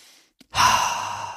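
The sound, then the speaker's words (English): A deep breath through the nose: one long, airy rush of breath that starts abruptly after a brief click, then slowly tapers off, with no talk. “Can we take a bunch of deep nasal breaths”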